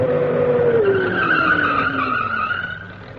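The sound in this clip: A car pulls up and skids to a stop. Loud tire squeal runs throughout, with a high screech and a lower tone sliding downward, and it eases off toward the end.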